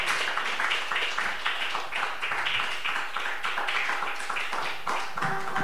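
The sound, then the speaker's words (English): Audience applause for a band at the close of a night's show: dense, steady clapping sustained for almost six seconds at a moderate level, with a faint tone surfacing near the end. “Ladies and gentlemen, one more round of applause for the Heavenly Thrillbillies.”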